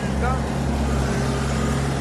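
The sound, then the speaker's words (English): Land Rover engine straining under load, the farmers' vehicle carrying a broken chassis, gives a steady, low, rumbling drone that holds at an even loudness throughout. “If the farmers put any more pressure on the Land Rover, their broken chassis will snap.”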